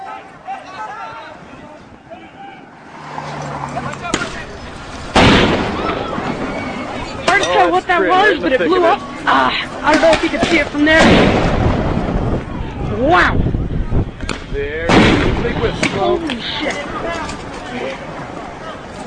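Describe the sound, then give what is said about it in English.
A grenade blowing up near a group of young people: a sudden loud blast cuts through the crowd noise, followed by more sharp bursts, with agitated voices and shouting throughout. “What that was, but it blew up. I don't know if you can see it from there. Wow. There. Holy shit. Oh, God, what is that? That is a freaking grenade. Oh, my God. That just blew up on these kids.”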